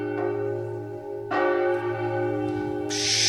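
A church bell in Bamberg tolls deep and heavy, its rich, ringing partials sustained between a few strikes that overlap as each hum lingers, heard alone without voices.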